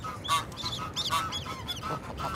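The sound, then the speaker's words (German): Honking of a restless gander (male goose): a quick, irregular series of loud, nasal, strongly harmonic honks, sounding alone with no talk. “Der Ganter wird unruhig.”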